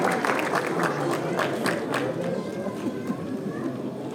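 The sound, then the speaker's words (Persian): An audience applauds at a ceremony before a provincial governor's speech, producing a dense, even wash of many hands clapping that holds steady throughout. “مجدداً به افتخار اون دو عزیز دست بزنید و استقبال سخنان استاندار”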